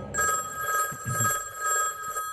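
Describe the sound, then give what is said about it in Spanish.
A telephone rings at night inside a house in North Yorkshire, England, a steady electronic-sounding bell tone repeating in a few evenly spaced pulses, fairly loud, with a faint low rumble beneath. “el teléfono suena en la casa de Lord Armstrong, en el norte de Yorkshire, Inglaterra”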